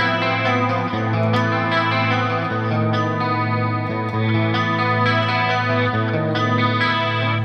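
Electric guitar played through an amp modeler, a continuous stream of ringing chords with a chorus-like shimmer and slight grit. It holds an even, fairly loud level throughout with no talking.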